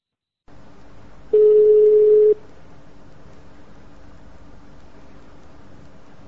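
A telephone line after a call is hung up gives a single steady electronic beep lasting about a second. Before and after it, only a faint, even line hiss continues.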